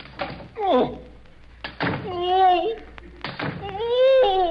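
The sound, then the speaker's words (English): Three heavy thunks as razor-sharp swords are plunged one after another through a basket during a magic trick. A voice sounds in the gaps between the blows. “All I do is plunge these three razor-sharp swords through the basket.”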